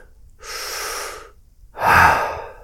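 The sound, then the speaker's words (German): A deep breath drawn in and let out: a soft, airy inhale, a short pause, then a louder, fuller exhale, with no talking. “atme erst einmal tief durch”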